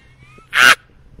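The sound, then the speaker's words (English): A voice imitating a witch-like cackling laugh, given as a single brief, shrill, raspy burst, loud and high-pitched against near silence. “It was like a cackle, like a witch cackle”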